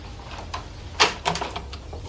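Door being opened: a couple of sharp clicks or knocks close together, like a latch and handle, over a faint background hiss.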